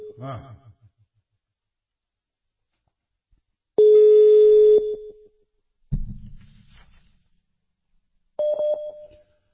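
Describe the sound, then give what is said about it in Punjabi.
Telephone ringback tone while a call is being placed: two steady electronic beeps separated by silence, with brief voice sounds before and between them. “ਪਤਾ ਨਹੀਂ ਇਹਨਾਂ ਨੂੰ ਕਾਲ ਵੀ ਜਾ ਰਹੀ”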